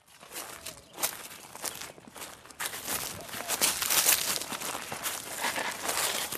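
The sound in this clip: Footsteps of people walking outdoors through a landscape, a steady run of many crunching steps that grows slightly louder and busier toward the end.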